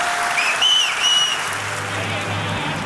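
Dense, steady applause from a theatre audience at the Ariston rising in a standing ovation for a 100-year-old man, with a few high whistles cutting through the continuous clapping.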